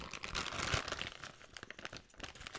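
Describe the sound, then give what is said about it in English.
Pistachio shells are handled and cracked open in a busy, continuous stream of crinkly clicks, snaps and rustles that stays fairly loud throughout. “Okay, sorry, I'm just taking a few more because I'm kind of hungry. What? There's no pistachio in this one. It's just a shell.”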